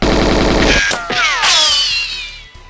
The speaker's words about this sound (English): Up ahead is a long service tunnel with two more guards taking pot shots at us.